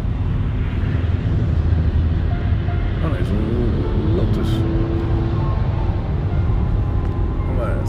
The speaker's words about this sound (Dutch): Prima geluid. En dus ik verwacht wel dat goed uitziet. Dit is een Ferrari.